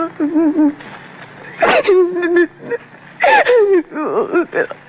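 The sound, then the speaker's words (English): A woman cries, her voice breaking into wavering, whimpering sobs in uneven bursts with short pauses between them. “I gotta stop crying. I gotta.”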